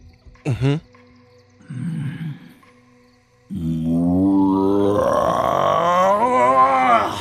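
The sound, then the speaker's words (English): A human voice imitates a roar. A short yelp and a low grunt come first, then a long, loud voiced roar lasting several seconds whose pitch gradually climbs. “Roar echoes throughout the woods.”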